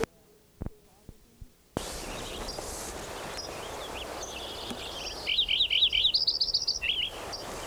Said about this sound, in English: Lincoln Sparrow number 5 again.